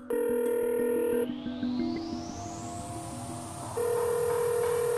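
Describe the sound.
Electronic telephone tones during a cold call: a steady, loud tone at the start gives way to a rising synthetic sweep, then the steady tone returns near the end, with no voices.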